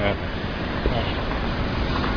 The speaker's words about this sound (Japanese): 結構車の音も電車の音も聞こえ出したかなっていう気もするんですけど